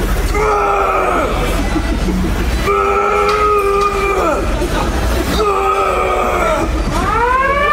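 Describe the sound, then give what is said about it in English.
A gym's lunk alarm going off, loud siren-like tones sounding in several repeated wailing bursts with pitch bends at their ends, over constant background noise. “Wait, that is the alarm! That's the actual alarm.”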